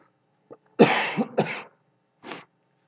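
A throat-clearing cough sounds as two harsh, closely spaced bursts, with a brief faint rasp just before and a softer rough clear shortly after.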